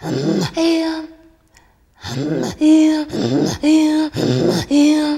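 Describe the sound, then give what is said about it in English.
A voice demonstrates a song sung on both breaths, with deep tones on the exhalation and high notes on the inhalation. The strong, buzzing vocal phrases repeat in a steady pattern, broken by a brief quiet pause early on. “there's a song that you give the deep part on the exhalation and then a high note on the inhalation, like”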